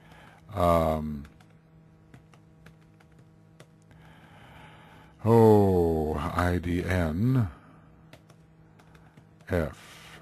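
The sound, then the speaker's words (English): Faint, irregular taps of someone typing on a computer keyboard, sparse clicks scattered between stretches of a person speaking. “Sorry for the typing. I taught myself how to type, you know, so you see the result.”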